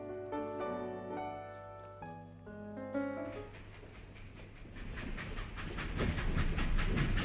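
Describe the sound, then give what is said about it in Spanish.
A train rolls along its rails, heard from the train's corridor. Sustained tones fade into a rumbling, rhythmic clatter that grows louder toward the end. “ya estamos en el pasillo del tren y vamos a los siguientes vagones”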